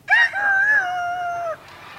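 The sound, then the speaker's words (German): A human voice imitates a rooster crowing with one long, loud crow that wavers in pitch and cuts off abruptly, leaving a faint background behind. “Und Hähne auch, wie ihr hört. Tierstimmen sind nämlich international.”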